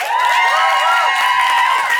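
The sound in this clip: Quiz show studio audience cheering, a loud, sustained roar of shouting and whooping voices that holds steady for about two seconds.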